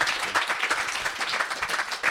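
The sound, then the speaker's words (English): Warm audience applause welcoming two guests, a dense, steady patter of many hands clapping throughout at fairly even loudness, with no talk. “So please give a warm round of applause to John and to Jess.”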